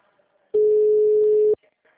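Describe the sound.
Ringback tone of an outgoing telephone call: one steady mid-pitched tone about a second long, starting and stopping abruptly, with only faint sound around it.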